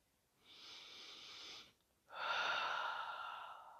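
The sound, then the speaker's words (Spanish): Slow, calm breathing during a guided relaxation: two long, airy breaths separated by a short pause, the second fuller and louder. “Oxigeno mi cerebro. Respiro y descanso. Respiro armoniosamente.”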